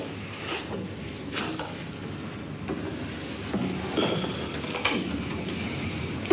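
Faint mechanical clicks and scrapes as a cigarette is lit, with a few short, light taps spread across soft background noise and a sharper click at the very end.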